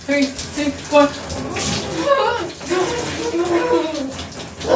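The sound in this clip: Water rushes and splashes while someone rinses off in a bath, a steady loud flow with intermittent splashes and a voice speaking over it.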